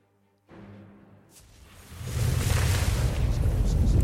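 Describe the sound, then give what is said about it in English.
Fire burns in a video game. After a brief silence, a low rumble gives way to a broad, hissing roar that swells and then holds loud and steady to the end. “Oh, we just died in a fire. Alright, we're gonna have to try this again. There's a lot of fire around.”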